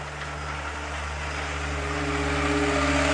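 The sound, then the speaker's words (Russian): A car drives up, its engine a steady mid-pitched hum and rumble that grows gradually louder toward the end with no sharp changes. “Кажется, это не ваша машина.”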